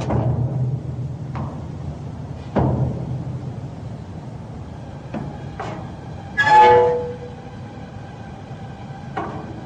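Metro train pulling into a city station: a steady low rumble with a few sharp clanks, and a brief high screech about two-thirds of the way through.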